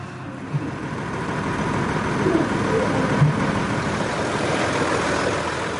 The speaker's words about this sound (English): The drive to the airport began what would be a 2-day journey.